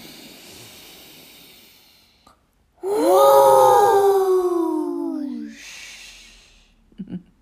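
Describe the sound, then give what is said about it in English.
A loud voiced exhale, a long hooting whoosh that imitates the wind during a breathing exercise, lasting about two and a half seconds with a slightly falling pitch. Softer breathy sounds come before it and a faint hiss follows. “This time, when you breathe out, can you make a sound as loud as the wind outside?”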